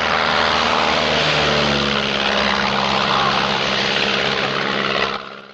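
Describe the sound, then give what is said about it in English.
A propeller plane moves off and takes off, its engine a loud, steady, rumbling drone that drops away sharply at the end. “The plane moves away just as the German soldiers appear.”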